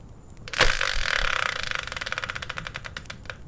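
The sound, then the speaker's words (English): A prize wheel spinner turns with a sudden loud start, then a rapid run of ratcheting clicks that gradually slow and spread apart as it winds down. “So let's bring in the Wheel of Fortune style spinner and find out what today's subject will be.”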